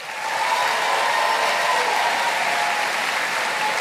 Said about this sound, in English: Ladies and gentlemen, please welcome Chairman and Co-CEO, Salesforce, Mark Benioff.